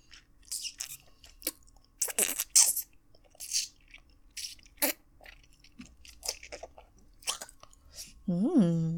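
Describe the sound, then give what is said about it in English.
Wet sucking and slurping mouth sounds on a sweet treat, heard alone as irregular bursts of smacks and slurps, ending in a short voiced hum. “The more I suck on it, the more this tasty stuff seems to dribble out. It's so sweet and tasty. I wonder what would happen if I sucked on it really hard.”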